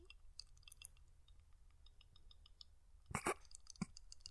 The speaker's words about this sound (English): Your tongue was doing this. Can you do that again?